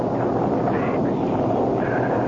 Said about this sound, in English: Just a storm.